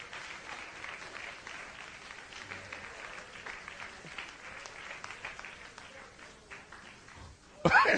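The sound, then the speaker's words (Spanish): A church audience applauds during a sermon, a steady sustained patter of many hands clapping, with a sharp louder burst just before the end. “Dale un aplauso a Cristo y sigo.”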